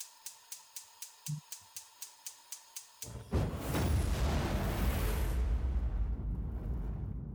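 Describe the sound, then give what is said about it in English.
A new intro jingle for a Pressure Cooker quiz segment opens with a steady run of sharp, evenly spaced ticks for about three seconds. A loud, sustained rushing burst follows and its bright top slowly thins out. “we've got a new little intro jingle I'm going to play for you, and then we'll uh, we'll get stuck into it.”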